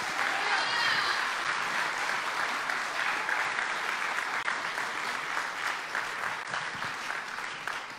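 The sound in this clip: Audience applause at a church event welcoming a couple to the stage: loud, dense clapping that holds steady and fades slightly at the end, with voices heard over it.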